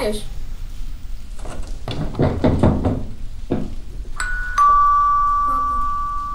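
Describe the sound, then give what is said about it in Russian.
A doorbell rings repeatedly at a house door, a bright sustained chime that follows a stretch of dull, muffled knocking and thumps. “В дверь все звонили и звонили, но отец молчал.”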